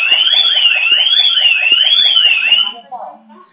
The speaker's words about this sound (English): No, that's my alarm.